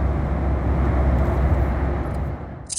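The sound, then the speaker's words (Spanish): A constant low roar fills an airplane cabin in flight to Buenos Aires. The rumble is heavy and steady, then dips slightly near the end as a brief hiss cuts in. “sonido que se escuche en el avión. Y estoy volando y voy a Buenos Aires.”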